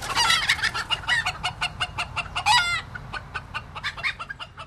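Chickens cluck in an ornate garden chicken coop, a rapid, busy run of many short clucks. A brief, louder crowing-like call rises out of the clucking midway through.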